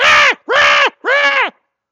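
Seagulls crying early in the morning: three loud, harsh, nasal calls in quick succession, each arching in pitch.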